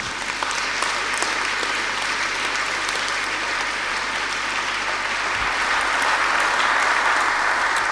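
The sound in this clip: An audience applauds to welcome a bishop about to speak at a morning service. The clapping is dense and continuous, holding an even loudness from start to finish.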